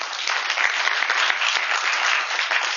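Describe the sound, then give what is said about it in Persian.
Audience applause welcoming a guest: dense, even clapping from many hands that holds steady from start to finish without fading. “یه دست به افتخارش بزنید.”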